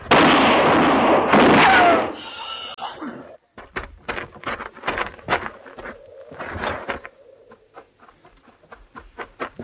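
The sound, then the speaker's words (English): A gunshot rings out as a loud, sustained blast in the opening seconds, then gives way to many short knocks and clattering thumps at a lower level. “You shot him.”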